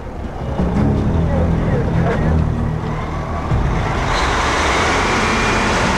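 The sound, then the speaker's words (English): A semi truck pulling out of a busy truck stop lot, a continuous low, rumbling engine and road noise that stays loud throughout. “As a state trooper directs truck stop visitors, Red pulls out in his semi.”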